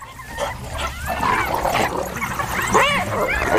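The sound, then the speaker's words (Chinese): A spotted hyena calls with loud, wavering whoops and yelping cries that bend up and down in pitch, repeating over a rough background noise. “又来了一只斑鬣狗”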